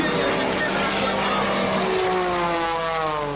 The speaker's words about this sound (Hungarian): délután leglátványosabb eseménye a légiparádé volt Budapesten a Duna felett. Az utasszállítók bemutatója után nem sokkal elkezdődött a verseny.